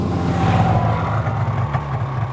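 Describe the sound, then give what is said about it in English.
A truck drives up with a continuous mid-pitched engine drone and a faint whine, steady and fairly loud for a couple of seconds. “a man in a shiny white truck drove up”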